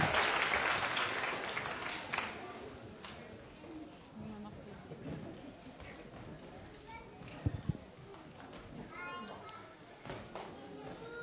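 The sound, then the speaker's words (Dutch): Children applaud themselves on a wet, watery outing. The clapping is loudest at the start and thins over about eleven seconds, mixed with children's chatter and voices. “Nou, even een applausje voor jullie zelf hoor.”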